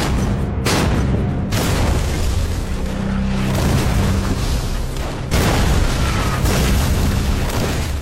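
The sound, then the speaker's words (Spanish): Artillery shells explode during an attack in a World War II battle, a loud, continuous barrage of deep booms and rumbling blasts that runs without a break. “Mientras caen proyectiles a su alrededor, Mackenzie mira su reloj atentamente.”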